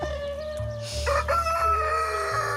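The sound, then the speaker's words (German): A rooster crows in one long, drawn-out call with a strong, steady tone that shifts partway through and holds to the end. No voices are heard. “Das kann man nicht sagen, warum er jetzt kräht.”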